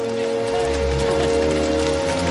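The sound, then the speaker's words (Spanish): Heavy rain pours in a film scene outside a castle as students run for cover. The hiss is loud, dense and continuous, with no breaks or pauses throughout. “La lluvia cae con fuerza.”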